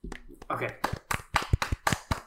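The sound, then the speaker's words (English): Sparse, half-hearted clapping from a person asked to applaud, with a few uneven, unenthusiastic claps mixed with voices talking. “You get a very cold and not that heartfelt applause.”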